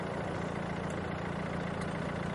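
A car engine idles at the roadside while a woman sits inside the vehicle, a steady, faint low hum with no variation in rhythm and no voices.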